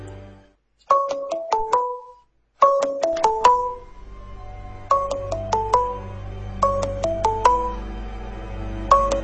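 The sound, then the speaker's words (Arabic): A phone rings during repeated call attempts: a short melodic electronic ringtone phrase repeats several times, with a brief break early on, and later sounds over a low steady hum. “رنيت عليه 10 مرات ورا بعض ومش بيرد عليا. بس ما ينفعش اروح كده، لازم يبقى عارف عشان لو في حاجه يجيلي على هناك. انا هجرب اخر مره وخلاص.”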